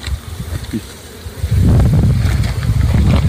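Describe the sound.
Bees buzz around poisoned beehives, a low, wavering drone that starts faint and grows louder and denser halfway through.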